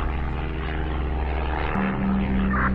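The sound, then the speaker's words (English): Aircraft engine drones steadily in smooth, stable flight after takeoff, a loud continuous hum with a low tonal whine that enters partway through and holds to the end. “Take off was so nice. Even the flight is very stable.”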